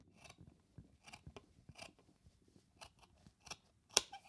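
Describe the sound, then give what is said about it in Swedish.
Scissors cut through knitted rustic yarn in a string of faint, crisp, irregular snips, ending with one sharper, louder cut. “Här mm. klipper jag.”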